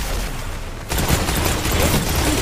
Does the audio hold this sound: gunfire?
yes

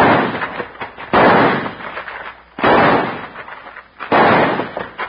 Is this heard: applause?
no

